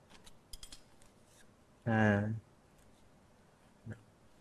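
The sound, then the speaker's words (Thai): Excess pipe insulation trimmed to length with a cutting tool: a few light clicks, then one louder, squeaky cut lasting about half a second, followed later by a faint short snip. “และทำการตัดตามระยะนะครับที่กำหนดนะครับนะตัดในส่วนของอินซูเลชันที่ยาวเกินไปนะครับ”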